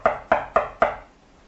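Four sharp knocks on a door, evenly spaced and heard alone, each with a short hollow ring that decays before the next.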